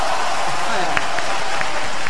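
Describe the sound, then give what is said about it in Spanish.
Applause from an audience welcoming a guest on an interview show: a steady, dense wash of clapping that holds at an even level for about two seconds. “Hola, aplausos, vamos a buscar aplausos. Para, si la hacemos bien, ahí va.”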